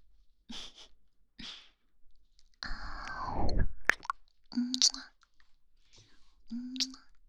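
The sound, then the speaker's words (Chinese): Chewing freshly bought grapes: wet crunching and smacking, with a loud juicy burst of crushing in the middle, scattered sharp clicks and soft whispery mouth sounds around it. “这个是我们刚进回来的葡萄耶，它的味道也是好极了的”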